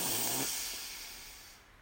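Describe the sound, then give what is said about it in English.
A single deep breath drawn in as part of a guided breathing exercise: an airy, fairly loud rush of breath that starts strong and gradually fades over almost two seconds, with no other sounds. “So we just take 3 deep breaths here. And as we're breathing in, we extend our belly out, and then we hold for a moment and exhale with a loud audible sigh. So breathe in”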